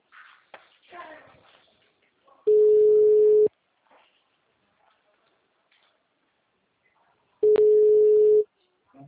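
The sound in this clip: Ringing tone of an outgoing telephone call: two long, steady, mid-pitched tone bursts of about a second each, separated by several seconds of near silence, with a brief voice near the start.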